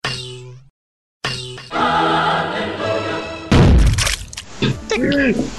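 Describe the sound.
The Holy Hand Grenade 'Hallelujah' sound effect from Monty Python and the Holy Grail: a brief sung choral note, a moment of silence, then a longer sustained choir chord that gives way to a loud, rumbling blast.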